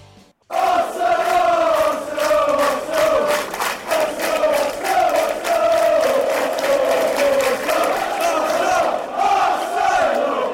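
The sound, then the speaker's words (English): Arsenal fans chant in unison in a stadium. After a brief quiet start, the loud, continuous crowd singing follows a steady rhythmic melody throughout. “Back now on Extra Time Radio. Arsenal fans, welcoming you back in.”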